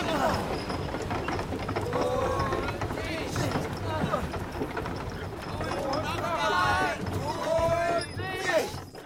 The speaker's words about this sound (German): Anker hoch! Oh.